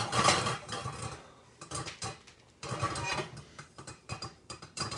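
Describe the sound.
Metallic rattling and clanking from a frequently used cooking pot being shaken, coming in repeated uneven bursts with short pauses between them, fairly loud and with no voices.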